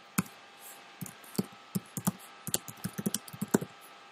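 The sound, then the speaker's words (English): Notes being typed on a computer keyboard: many faint, crisp key clicks in an uneven run, sparse at first, then quicker and denser toward the end. “So, just going to type in some notes here.”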